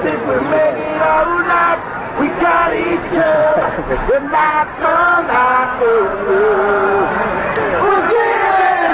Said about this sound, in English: See, now you can hear a couple of people in the background starting to sing along, but they still don't know all the words. Now, everybody knows the hook to this song.